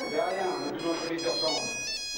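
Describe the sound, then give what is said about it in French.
A mobile phone ringtone chimes during a police statement: a bright electronic melody of sustained, buzzy high tones that plays continuously at a moderate, even level for about two seconds, with brief dips in its upper notes. “Oh, excusez-moi, mon portable.”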